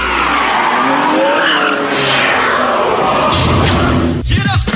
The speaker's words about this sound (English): We have a nice Ferrari 599 GTB with 600 PS horsepower. 600 horsepower Ferrari to drive?